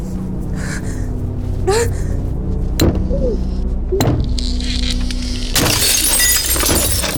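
A glass door shattering as a person with a blanket wrapped around their head and shoulders runs into it: a few sharp knocks and gasping breaths, then a loud, bright crash of breaking glass that rings on to the end.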